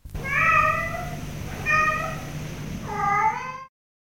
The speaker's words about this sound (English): 4. Cat.